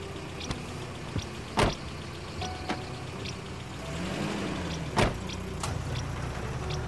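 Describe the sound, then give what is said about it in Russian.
Someone gets into a car and drives away. Several faint clicks and two louder door-like thumps sound over a quiet, low vehicle hum. “садится в машину и уезжает”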